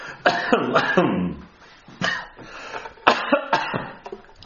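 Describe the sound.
Harsh coughing from someone who has swallowed the wrong way, with several loud, rough bursts in irregular clusters, some carrying a throaty, voiced edge, separated by short pauses.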